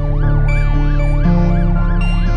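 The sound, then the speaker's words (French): An ambulance siren wails loudly and alone in a continuous, rapid up-and-down sweep that repeats evenly throughout. “David Faraday est vivant quand les secours l'embarquent dans une ambulance”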